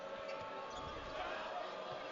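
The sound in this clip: A basketball is dribbled slowly near center court during a BYU college game, with regular, unhurried low thumps beneath a commentator's voice.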